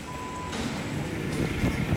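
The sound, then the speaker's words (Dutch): A bus to Feyenoord pulls up. A steady, loud engine rumble and hiss runs throughout, with a single high electronic beep at the very start. “Daar is hij hoor. De bus naar Feyenoord.”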